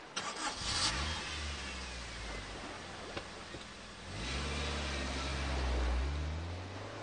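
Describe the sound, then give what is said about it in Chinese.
Car engine starting and running, quiet and low-pitched, with a rumbling idle that swells as the revs climb partway through and then hold steady. “那就坐我的车去吧，陆傲，你去开车”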